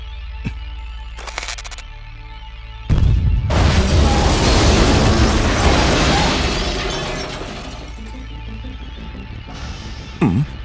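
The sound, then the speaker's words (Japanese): Controlled demolition explosion of a hotel: after a few faint clicks, a sudden heavy boom bursts out and becomes a long, rumbling roar of collapse that slowly fades, followed by a brief crackling burst near the end. “よし、爆破解体開始する。”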